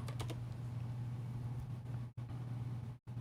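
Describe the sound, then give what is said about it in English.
Typing on a computer keyboard: a few quick key clicks near the start, then a steady low hum with brief dropouts. “All right, so let's type in let's type in JPM coin retail.”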